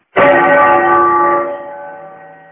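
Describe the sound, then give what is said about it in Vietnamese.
A single deep strike of a temple bell rises from a monastery below a mountain, carried on the wind. Its rich humming tone swells loud and then slowly fades, ringing alone. “Gió đưa tiếng chuông chùa từ phía dưới vọng lên”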